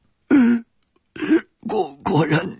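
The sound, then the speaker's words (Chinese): Violent coughing from a temple abbot, voiced by a performer in a dramatized reading: four harsh, throaty bursts separated by short pauses, the later ones rougher and longer. “宝公突然面色赤红，剧烈的咳嗽起来”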